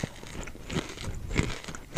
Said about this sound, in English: you really berate me about bringing food on here and taste testing. These are good.